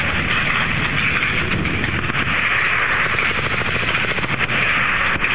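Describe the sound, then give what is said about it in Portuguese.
Heavy artillery gunfire as a continuous, loud, dense crackling roar with no clear gaps between blasts, steady from start to finish. “Artilharia pesada.”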